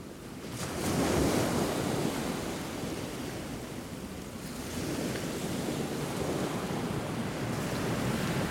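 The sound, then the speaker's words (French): Sea-like wash of waves near buildings: a steady, broad rushing roar that swells in the first second, eases slightly through the middle, then holds level to the end, with a wind-like hiss and no voices. “C'est aussi un peu la mer, on dirait la mer qui s'approche. Hein. C'est proche des bâtiments.”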